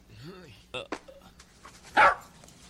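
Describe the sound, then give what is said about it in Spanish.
A hungry dog whimpering and barking: a short rising-and-falling whine, then a few sharp barks, the loudest bark near the end. “ese perro solo está hambriento”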